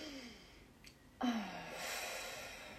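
A short inhalation through the nose during a guided gratitude breathing exercise: a faint, airy intake that starts abruptly and trails off softly.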